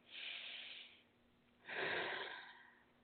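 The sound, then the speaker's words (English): Deep breathing during a guided chakra meditation: two faint, airy breath sounds separated by a short pause, the second fuller and louder than the first. “Deep breath.”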